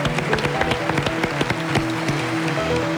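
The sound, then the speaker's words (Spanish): A studio audience gives sustained applause at a radio anniversary celebration. Dense, even clapping continues for the whole stretch at a steady, fairly loud level, with no clear speech over it. “A Matías Prats lo hemos aplaudido antes, pero nos apetece aplaudirle otra vez.”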